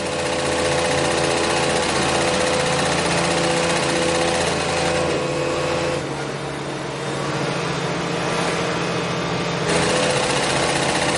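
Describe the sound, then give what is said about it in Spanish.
Sewing machines whir in a prison workshop, a steady, continuous mechanical hum with a constant tone that eases briefly partway through before returning to full level. “Cose en el taller.”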